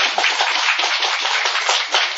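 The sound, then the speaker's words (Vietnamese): Audience applause at a Buddhist teaching question-and-answer session: a dense, steady wash of many hands clapping that holds at an even loudness from start to finish, with no talk. “Ông này nói thật thật thì chúng ta cho ông tràng pháo tay đi.”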